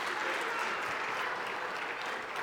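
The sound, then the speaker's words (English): A round of applause from a church audience, a steady, even roar of many people clapping at once, sustained without pauses. “Can we just give these guys a round of applause?”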